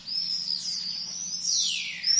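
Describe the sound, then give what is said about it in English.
Swifts call while feeding in the air outside a tower: shrill, high-pitched screaming that sweeps up and down in pitch almost without pause, ending in a louder burst. “They begin the programme high up on the outside of the tower, watching swifts feeding in the air.”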